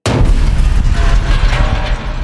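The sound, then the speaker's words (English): Ship weapons fire and enemy light fighters explode in a space combat video game: a loud, continuous barrage of heavy booms and blasts that starts abruptly and rumbles on without a break. “a few adjustments of rotation and pitch, and all the team's weapons fire. 8 fighters explode, and the others scramble.”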